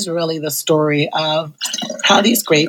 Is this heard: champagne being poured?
yes